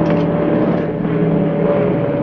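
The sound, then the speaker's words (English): A Sunderland flying boat sweeps overhead, its engines a loud, continuous, steady droning roar that holds at the same level throughout with no voices. “A plane with a wide fuselage and smooth curving underside sweeps overhead.”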